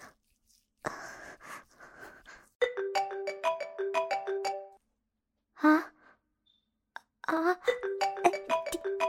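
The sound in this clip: A mobile phone ringtone plays a bright, stepped melody of repeated tones in two bursts, separated by soft sighs and heavy breathing.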